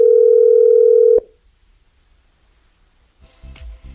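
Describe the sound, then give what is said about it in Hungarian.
A telephone dial tone sounds steady and loud for about a second as a call is placed to a radio listener, then cuts off abruptly into near silence before faint sounds return. “Na, hívjuk a naphallgatóját, hát ha működik még a rovat.”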